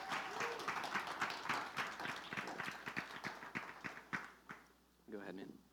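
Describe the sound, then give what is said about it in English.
An audience applauds to welcome a speaker onto the stage with a faint, steady patter of claps, and a voice begins speaking as the clapping ends. “Why don't you guys welcome Grant to the stage? He's going to share with you.”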